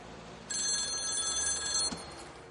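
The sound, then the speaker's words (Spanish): A telephone bell rings among a row of street payphones in a 1995 crime thriller film. A single sustained ring lasts under two seconds over a low, steady background hiss. “Nila guarda frente a una hilera de teléfonos.”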